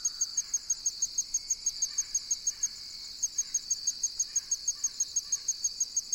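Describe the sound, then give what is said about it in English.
A tiny cricket, under half an inch long, sings from beneath fallen leaves in a rapid, evenly spaced train of many bright, high tinkling pulses. The song is fairly faint, breaks briefly midway, and faint bird calls sound beneath it. “Quite a pretty song for a tiny cricket that's less than a half inch long.”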